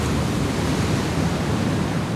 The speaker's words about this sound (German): Die Wellen sind mindestens 3 Meter hoch, kommen von allen Seiten und brausen auf den Strand zu.